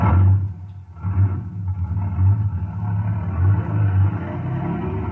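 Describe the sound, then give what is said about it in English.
Low, heavy engine rumble of a large vehicle getting under way, a deep droning pulse that swells and eases in a steady, uneven rhythm. “I shoved the brute into gear, and we were on our way.”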